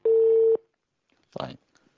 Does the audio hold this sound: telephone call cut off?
yes

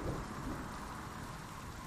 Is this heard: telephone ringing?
no

